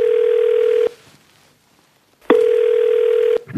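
Ringback tone of an outgoing telephone call: two loud steady single-pitch beeps, each just under a second and a half, separated by about a second and a half of near silence.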